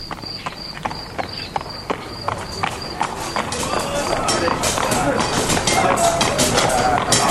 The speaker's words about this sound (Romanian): Era o dimineață frumoasă, să tot fi fost orele 6, când își făcu apariția o trăsură hodorogită ce se apropia în trap mărunt.